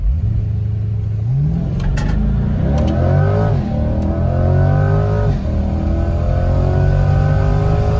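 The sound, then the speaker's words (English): A GM small-block V8 engine revs through the mid-range, its throaty tone sweeping up and down in pitch a few times, loud and alone with no voices. “GM small blocks make this music in the mid-range from the 3 to 4,000 RPM that no other V8s do.”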